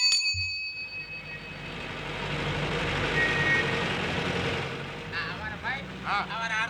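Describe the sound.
A bus on a Kanpur to Lucknow route starting to move off: a steady engine rumble with broad road noise that swells and then eases, with voices at the end.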